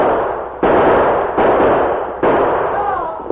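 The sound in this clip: Gunshots are fired at approaching riders by outlaws hiding in a gully. Three abrupt, loud blasts come at steady intervals, and each one trails into a long, noisy roar that fills the gaps. No voices are heard.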